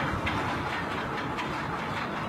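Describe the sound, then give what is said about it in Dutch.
A ship's huge anchor chain runs out fast through the windlass as the anchor drops to the North Sea floor, throwing off smoke and rust. The rattle is a loud, continuous, steady clatter with no break. “Het ankerwiel draait nu inmiddels. We gaan met noodgang naar beneden. Er komt een heleboel rook en roes vanaf. En zo verdwijnt het anker op de bodem van de Noordzee.”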